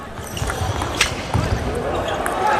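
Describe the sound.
A table tennis ball bounces during a player's serve in a match: a few light, sharp taps over steady crowd noise, with a commentator talking throughout.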